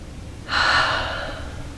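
A single deep inhalation during a guided eyes-closed relaxation exercise. It starts about half a second in as a loud, breathy rush, then tapers slowly without fully stopping. No one speaks.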